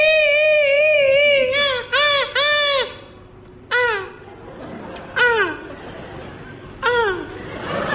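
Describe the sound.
A voice imitates the stylized weeping of a Chinese opera qingyi role: a long quivering, wavering high note, then several short sobbing cries that bend down in pitch, with pauses between them.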